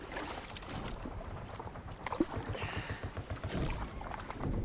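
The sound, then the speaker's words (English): Oars work a rowing boat through grey, misty water: a steady run of rhythmic splashing strokes and low knocks, moderately loud, with no voices. “He takes up the oars.”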